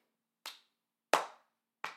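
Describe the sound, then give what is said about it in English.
Three sharp, separate hand claps come from dancers clapping as part of their choreography. The crisp, bright claps are spaced unevenly apart, with silence between each. “Unfortunately, this dance had claps in the choreography.”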